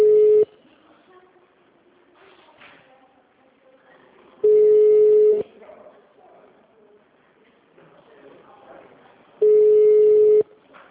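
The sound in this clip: Ringback tone on an outgoing call to a bank's personal-customer line: three steady mid-pitched beeps, each about a second long, spaced roughly four seconds apart, with faint low noise between them.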